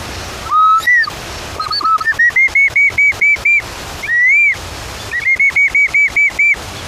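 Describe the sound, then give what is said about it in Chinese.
Bamboo instrument imitating a bird call: clear, rising whistled notes that swoop up, then a fast series of about eight short, even, bright chirps, repeated twice with pauses, loud and alone. “竹子是一个非常好的拿来做自然乐器的一个材料。模拟鸟叫的声音，还有另外一种鸟，”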